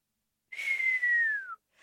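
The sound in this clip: Soft whistling from one person: a single sustained note of about a second that holds steady and then dips slightly in pitch at the end, heard alone.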